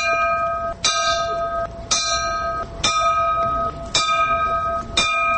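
A bell tolls during a moment of silence at a memorial rally for the Chernobyl disaster. Five loud, ringing strikes fall at an even, slow pace, each leaving a sustained metallic hum under the next. No voices are heard.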